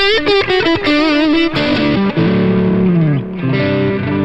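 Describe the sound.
Boosted high-gain distorted electric guitar lead tone with about 4 dB of boost, starting with quick choppy notes before moving into loud sustained, wavering bent notes with no other sounds.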